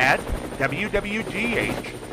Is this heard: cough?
no